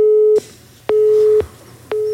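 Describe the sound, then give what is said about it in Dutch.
Telephone busy tone after a call disconnects: a steady mid-pitched tone pulsing on and off in even half-second bursts with equal gaps between, loud and alone, with no voices. “En dat betekende gelijk einde telefoonverbinding.”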